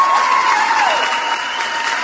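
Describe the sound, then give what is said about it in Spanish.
Audience applause for a listener who has paid off the last of their debts, during a debt-advice radio programme: a continuous wash of many hands clapping, steady and fairly loud, easing off slightly toward the end. “aplausos para Tarasca 2012.”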